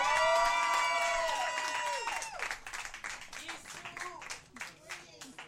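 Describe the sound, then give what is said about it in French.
Cheering and applause for a comedian at a comedy show: loud sustained shouts and whoops at first, then clapping that thins out into scattered, uneven claps as the noise tapers. “Mesdames et messieurs, une grosse main d'applaudissement pour Tommy Godette!”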